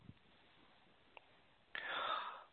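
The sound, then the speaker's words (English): A deep breath drawn in, a soft, airy inhale that swells in the second half after near silence, faint overall with a tiny click before it. “So let's go ahead and take a nice deep breath in.”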